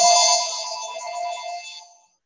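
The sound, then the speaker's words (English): An electronic phone ringtone sounds as one bright, steady harmonic tone that holds for about two seconds and then fades out. “that phone's not going to stop.”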